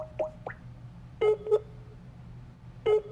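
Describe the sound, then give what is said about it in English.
A phone number is dialed for a call to Austin, Texas. A few short, faint keypad tones come at irregular gaps, some in close pairs, with quiet between them. “we're going to dial her up in Austin, Texas. So let's go.”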